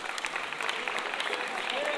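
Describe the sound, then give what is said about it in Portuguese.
Audience applause for a samba musician at a live samba performance: dense, even clapping from a crowd, sustained throughout, with a voice talking over it. “Um aplauso aí pro nosso querido”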